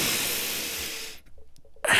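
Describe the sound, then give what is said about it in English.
A deep breath: a long, airy rush of breath that slowly fades over about a second, followed by a few faint, soft sounds. “It's easy to get angry, but remember to take a deep breath, okay?”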